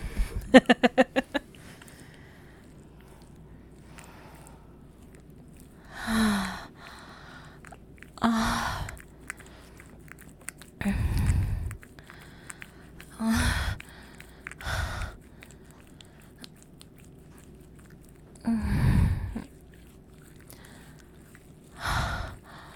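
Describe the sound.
Slow, deep breaths in and out, heard as several broad, airy bursts separated by quiet pauses, after a quick series of clicks at the start. Moderately loud, with no talk.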